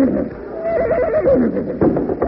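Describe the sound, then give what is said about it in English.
A horse neighs in a loud, wavering whinny that quavers up and down in pitch over rough background noise. “Oh, there, horses.”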